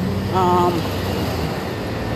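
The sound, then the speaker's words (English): A train passes outdoors while someone walks, a loud, broad rumble that persists throughout, with a short tonal note early on. “I apologize if you can't hear me over the train, yes, I am walking.”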